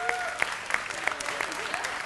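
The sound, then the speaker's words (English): An audience applauding in a dense, steady burst of clapping, with a voice speaking over it. “applauding yourselves, that's very cool.”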